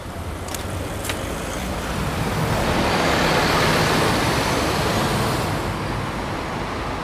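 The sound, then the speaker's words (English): Morning traffic on busy Hills Road at 7:30 on a Wednesday: a loud, continuous roar of cars, buses and trucks passing, swelling slightly mid-way and staying dense throughout. “Hills Road, Wednesday morning, 7:30 a.m. Goes from very loud to completely quiet.”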